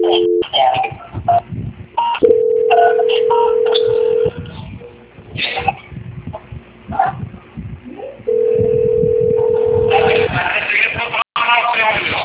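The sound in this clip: Ringing on an unanswered telephone call that someone is trying to transfer: two long, steady, mid-pitched ring tones over a narrow, tinny phone line, with people talking between and around them.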